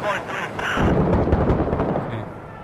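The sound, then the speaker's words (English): Mortar explosions land during combat in the Six Days in Fallujah video game: heavy rumbling booms with sharp cracking edges roll on for about two seconds before tailing off. “We gotta get inside. We gotta get inside. They're mortaring here.”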